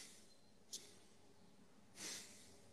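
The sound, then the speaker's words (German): A voice imitates the puffing exhalation of a sleeping person: one short, sharp puff of air, then a longer, soft breath out. Both are faint, with no talking. “er atmet so eine Stoßatmung aus, also wie jemand, wenn du merkst ja an der Atmung, wenn jemand schläft.”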